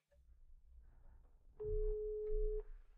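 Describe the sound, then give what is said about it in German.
A single ringback tone from an outgoing phone call: one steady, mid-pitched beep lasting about a second, sounding over a low background rumble. “Dann, Rhee, darfst du jetzt mal Nina anrufen.”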